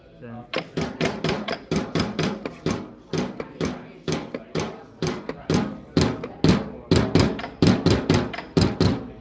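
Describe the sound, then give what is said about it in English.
Small spring-loaded solenoids tap on a biscuit tin, a wooden box and a tabletop, producing many quick knocks in a steady rhythmic pattern that mixes tinny, woody and dull thuds. “And that noise is made by a little mechanical spring mechanism that jumped on a biscuit tin, on a wooden box, and on the tabletop. Yeah, so they're called solenoids. It's a solenoid,”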